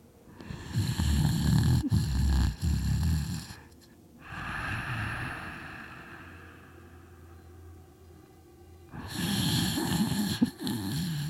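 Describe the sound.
Heavy, labored breathing drifting from a cave opening: slow, loud, rasping breaths with a deep snore-like rumble, a quieter drawn-out stretch between two louder heaving breaths.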